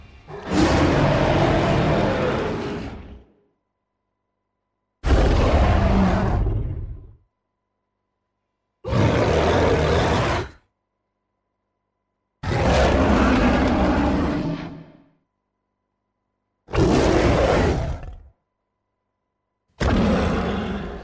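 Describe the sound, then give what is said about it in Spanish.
An evolved ape character roars in six long, loud, growling bursts, each lasting two to three seconds and separated by silence; the last is cut off at the end. “A todo lo bueno que suena muy parecido, pero como más intensito porque el mono, como hemos dicho, ha digievolucionado y el mono suena así.”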